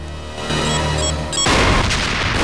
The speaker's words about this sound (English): Outside, an explosive device is placed against a metal door.